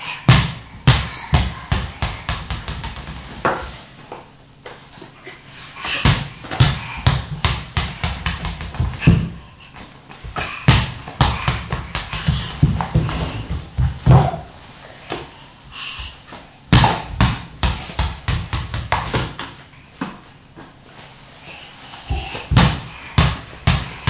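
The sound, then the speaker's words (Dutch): A ball bounces over and over during a child's play. Many sharp thuds come in irregular runs, some quick and some spaced out, with short pauses between the bursts. “Je wilt liever met de bal spelen. Wil je met de bal spelen?”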